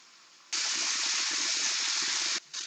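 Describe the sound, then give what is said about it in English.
Tap water running from a faucet: a loud, steady hissing rush that starts abruptly, holds for about two seconds, then cuts off, with one brief spurt just after. “Up next, we have the tap water running.”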